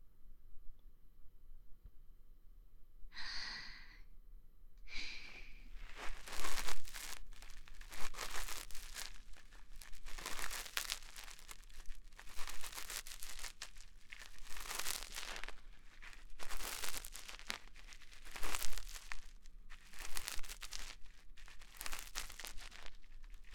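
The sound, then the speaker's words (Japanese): Ear cleaning with an ear pick and a bonten, made up of close, scratchy crinkling and rubbing strokes that come in many short, irregular bursts, fairly loud and steady throughout with no talking. “それでは仕上げに軽い耳かきと梵天でのお掃除をさせていただきますね。”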